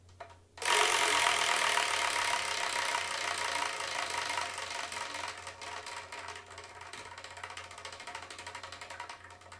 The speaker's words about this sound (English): And what I've done is I've assigned manga tile to each of 10 slots, so we're going to spin the Wheel of Manga.